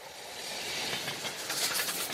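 A passenger train rolls along the rails on a journey to Moscow. It makes a loud, steady rushing rumble with faint rhythmic clatter throughout.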